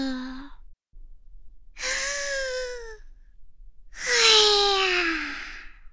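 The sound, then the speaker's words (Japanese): Breathing exercise with a few long, breathy, voiced sighs as the air is slowly let out. Each exhale has a soft tone that drifts slightly lower, with quiet pauses between them. “一緒にやってみよう。 大きく吸って、ゆっくり吐き出す。”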